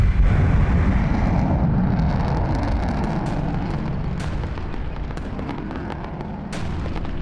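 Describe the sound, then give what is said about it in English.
Missiles launch and explode against a ship in a naval battle: a loud, continuous roaring rumble is heaviest at the start and slowly eases, with sharp cracks scattered throughout. “Missiles away. Rolling. And chaff is away.”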